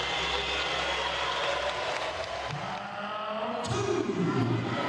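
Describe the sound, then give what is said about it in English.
Crowd ovation from a hometown audience as a Cornish WPMF Muay Thai world champion enters to defend her title, a dense, steady roar of cheering that stays loud and unbroken for the whole stretch. “Cornish woman with the Midas touch returns to her home county to defend the WPMF Muay Thai Championship of the World. And there she is, away to my left. Just listen to this ovation.”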